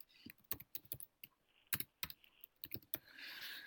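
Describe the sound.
Typing notes on a computer keyboard: quiet, uneven bursts of key clicks with short pauses between them, followed by a soft hiss at the end.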